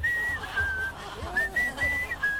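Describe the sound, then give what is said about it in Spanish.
A person whistles a short tune of several held notes at a fairly high pitch, quiet and with slight breathy pauses between phrases. “Podrías silbar nomás, no cantes.”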